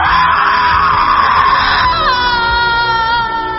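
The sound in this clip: A woman screams in pain: one loud, sustained, high-pitched cry that fills the whole clip and settles into a steadier, strained tone near the end.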